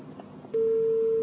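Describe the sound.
A telephone tone sounds after a dropped call. A loud, steady single-pitched tone switches on abruptly after a moment of low background noise and holds to the end.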